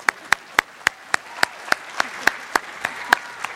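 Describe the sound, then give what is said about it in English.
Applause for a speaker at a Science on Saturday lecture: many sharp claps in a steady, even rhythm, about three or four a second, over a soft wash of crowd clapping. “You can give him a hand.”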